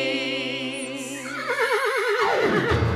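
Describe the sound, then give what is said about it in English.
A pony whinnies in a loud, sustained cry of quivering, trembling pitch lasting the whole stretch, ending in a low rumbling tail, heard alone while kids ride ponies. “We're kids riding ponies!”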